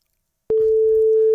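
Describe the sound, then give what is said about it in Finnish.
Ringback tone of an outgoing telephone call: a single steady, mid-pitched tone starts abruptly after silence and holds unbroken for about a second. “Katsotaan, että puhelin, joka on jossakin, josko siihen vastataan.”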